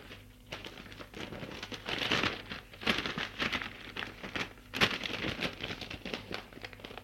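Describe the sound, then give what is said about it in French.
Paper rustling as a letter is slid back into its paper envelope: a long run of soft crinkles and scrapes, with a few louder rustling bursts. “Remet la lettre dans l'enveloppe.”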